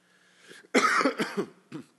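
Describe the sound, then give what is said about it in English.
A single person's cough: a loud, harsh burst with a couple of rough pulses, then a shorter, quieter cough after a brief pause. “Do you guys hear that cough?”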